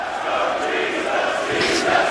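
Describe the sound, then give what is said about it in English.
A pumped wrestling crowd chants at the UK Championship Tournament in Blackpool, a broad, roaring mass of voices that holds fairly steady and swells slightly toward the end. “Just take a listen to this moment from the UK Championship Tournament when the crowd started chanting for Saxon Huxley, who bore a striking resemblance to a certain biblical figure.”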